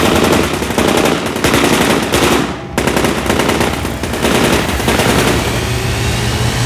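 Loud, sustained bursts of rapid gunfire from a ship in a radio drama roar almost without pause, break off briefly partway through, then resume and keep hammering to the end with no voices.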